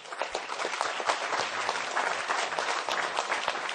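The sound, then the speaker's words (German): Applause fills the whole clip, a dense continuous patter of many hands clapping at an even, fairly quiet level without breaks. “Guter Gag. Applaus.”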